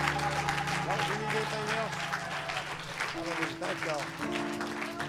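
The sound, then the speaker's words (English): A church audience claps along during a service, with rapid, steady hand claps running under loud voices throughout. “One more time, let's clap our hands and give thanks to Him.”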